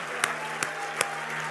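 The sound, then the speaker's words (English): Three sharp hand claps in an even rhythm, given in praise at a church service, ring out over a faint steady hum. “I want you to clap your hands for at least 30 seconds.”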